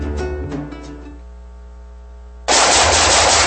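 Gunfire: after a fading low tonal hum, a loud, dense burst of rapid automatic shots erupts suddenly and continues to the end.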